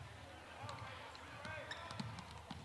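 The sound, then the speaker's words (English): A basketball is dribbled during a game, repeated dull bounces in a steady rhythm under continuous commentator talk. “Sheridan still with the dribble.”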